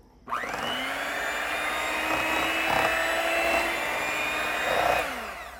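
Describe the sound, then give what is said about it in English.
An electric mixer runs through sugar, pumpkin and eggs, its motor starting abruptly into a steady, buzzing whine that holds for several seconds before the pitch sags slightly as it winds down. “I'm just going to give those a quick mix. And I'm going to get my mixer out and mix those all together.”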